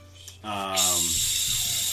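Rushing white noise of a waterfall in a video game dungeon. It sets in after a short tonal sound and holds steady and loud through the end.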